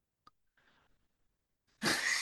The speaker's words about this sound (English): I'm gonna cough